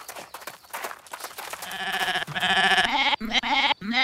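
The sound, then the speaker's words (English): Goat bleating: long, wavering, strongly tonal bleats that grow louder after a rougher start and are broken by short gaps near the end. “I see you've met a Wilbur, the goat.”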